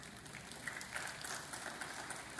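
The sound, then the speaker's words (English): A faint smattering of applause from an audience during a sermon, a thin, even patter of scattered hands clapping at low volume. “Thank you for that smattering of applause.”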